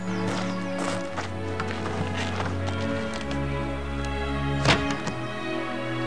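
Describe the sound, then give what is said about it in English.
Hooves of four horses clip-clop as they pull a coach away, a steady run of clopping beats under sustained low droning tones, with one louder thud near the end. “The four horses pull the coach away”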